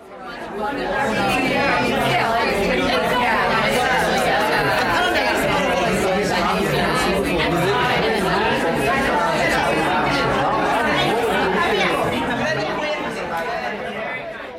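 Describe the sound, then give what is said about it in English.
Crowd chatter from a large gathering of food researchers at a conference: a dense, steady murmur of many overlapping voices that runs unbroken throughout. “But for now, here is the sound of a whole lot of food folks trying to figure out a better future for us.”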